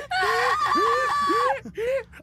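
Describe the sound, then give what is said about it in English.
Two girls scream-crying, high harmonic wails that swoop up and down in several overlapping bursts, loud and strained, ending with a short final sob after a brief pause. “Hot girl and cool girl burst out crying. They're scream crying.”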